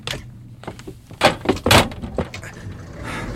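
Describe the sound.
A car door is opened and handled as someone gets into the car, with a couple of solid thumps and brief rustling and knocking over low background noise.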